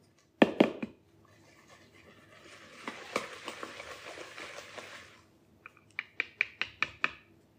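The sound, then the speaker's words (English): Eggs whisked with a whisk in a bowl: a couple of sharp taps, then a steady scraping swish of the wires, ending in a rapid run of crisp, bright clicks. “cracked and no shells, perfect. All right, we're gonna use my whisk here.”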